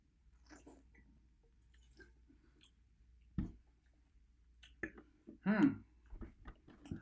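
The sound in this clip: Quiet sipping and tasting of a red wine: a few soft wet slurps and short mouth clicks rise out of near silence, the loudest burst coming near the end.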